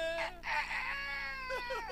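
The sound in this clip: A rooster crows on a farm: a loud, sustained, harmonic call with a few short falling notes near the end.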